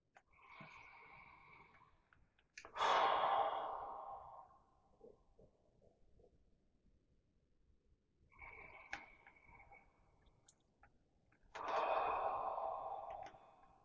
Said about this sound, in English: let us prepare ourselves for worship by taking a couple of deep thank you breaths